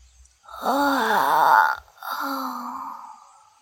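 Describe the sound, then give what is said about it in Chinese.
A child yawning and stretching on waking: a long voiced groan whose pitch bends up and down, then a short pause and a softer, steadier drawn-out exhale that fades away. “小四子似乎是被说话的声音吵醒了，打了个哈欠，伸了个懒腰”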